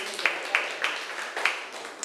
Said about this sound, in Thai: กลุ่มที่ทำการติดได้เป็นกลุ่มที่1กลุ่มแรกก็คือกลุ่มที่3นั่นเองปรบมือให้เพื่อนหน่อยค่ะ